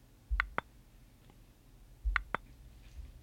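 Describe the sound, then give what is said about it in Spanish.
Computer mouse clicks: four short, quiet, sharp clicks in two quick pairs, separated by a pause of over a second. “Sí, esto es el sonido de un clic. Habéis oído bien.”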